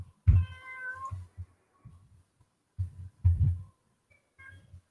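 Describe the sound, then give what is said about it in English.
A cat meows in the background, one drawn-out meow near the start and a fainter, shorter one near the end, with scattered low thumps between. “There was some noise in the background there. That's my cat.”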